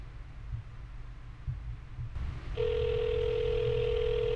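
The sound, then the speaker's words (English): A telephone dial tone comes in partway through and holds at one steady, even pitch over a low rumbling background. No clear dialling clicks or ringing cadence stand out. “Let's call him up. See if he picks up.”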